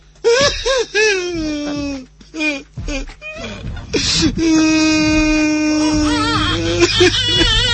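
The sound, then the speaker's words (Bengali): A baby cries in long, loud wailing bursts with sustained, wavering pitch, broken by short gaps and catches of breath, alongside other voices. “তোমার বাচ্চাও কাঁদছে”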